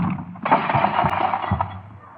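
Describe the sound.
A punch, a left hook thrown in a heated quarrel, lands as a couple of sharp, heavy thuds with a broad crack over a dense, noisy background.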